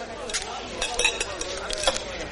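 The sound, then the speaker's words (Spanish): Glassware and tableware clink as a waiter serves a carafe of wine to a young woman in a tavern, a few sharp, bright clinks scattered over a quiet, steady background. “Mientras, el joven del puerto entra en una taberna. El camarero le sirve una garrafa de vino a una joven.”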